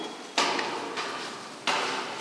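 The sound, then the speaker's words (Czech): A vat in a liqueur distillery is opened, giving three sharp clunks, each followed by a sustained, airy hiss of room noise. “Teď jste otevřela káť. V ní je tmavá, voňavá tekutina, ale víc už nerozšifruju.”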